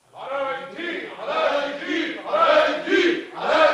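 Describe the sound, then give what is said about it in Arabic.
Distant crowd clamouring in a dramatised scene, with massed voices shouting and chanting in several loud, overlapping surges that rise and ebb across the whole stretch. “ايه الاصوات اللي جايه من بعيد دي؟ الجماهير سايره يا مولانا. عايزين ايه؟ بيطلبوا بالافراج عن علاء الدين.”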